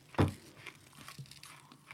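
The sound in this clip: Butter being spread on a crumbly Dutch rusk opens with one sharp, loud crunch, then trails into faint, soft scraping and crackling.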